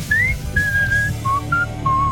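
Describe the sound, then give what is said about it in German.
A person whistles a short melody of about five clear, pure notes, the first one rising in pitch and the others held steady, with no talking over it. “Du kannst toll pfeifen.”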